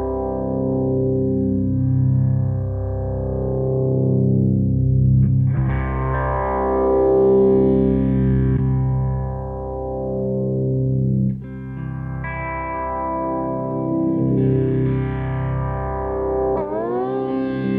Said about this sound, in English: this is what I use a lot of times for like just really super heavy like death kind of sounds. And I'll play low on the C6 neck.